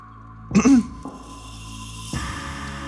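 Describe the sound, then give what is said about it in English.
A woman softly clears her throat once, a brief muffled rasp over a steady low background hum. “Mavis clears her throat softly and then breaks the silence.”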